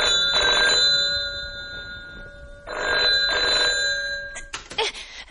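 A telephone bell rings in a home in two loud, trilling bursts separated by a pause, over a steady high hum.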